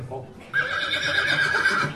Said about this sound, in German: wenn wir nochmal kurz die Straße freimachen, weil die Kutsche jetzt erstmal hier runterfahren muss